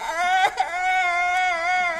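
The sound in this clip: A child cries in a high, sustained wail while other children squabble over toys, the tone holding steady for about two seconds with a brief catch near the middle and no talk over it.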